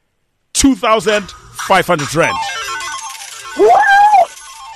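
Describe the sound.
A loud, warbling melodic telephone ringtone sounds before a phone call is answered. It starts abruptly after a moment of silence and plays on continuously in a wavering, voice-like tune.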